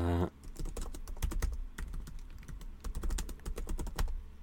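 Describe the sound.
Typing a note on a computer keyboard, a quiet, rapid stream of many light clicking keystrokes with small pauses, alone for about four seconds.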